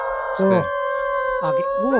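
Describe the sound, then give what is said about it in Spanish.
Wolves howl together, with long steady drawn-out tones held throughout and shorter arching howls that rise and fall, rising over them in a few loud bursts. “Es que no son tan distintos a nosotros los lobos. Mira, te voy a poner un segundo.”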